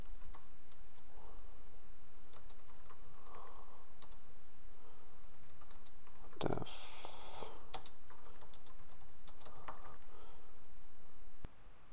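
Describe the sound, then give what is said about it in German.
Typing on a computer keyboard: many quick, irregular key clicks continue throughout, with a brief louder clatter near the middle. “Und so kann ich hier anfangen zu tippen und sehe, jawohl, bei jedem Tastendruck aktualisiert sich unser Bild und ergänzt, was wir geschrieben haben.”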